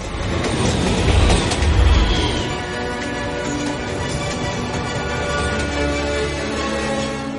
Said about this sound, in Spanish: El tren cruza la ciudad por la vía elevada a unos 10 metros de altura.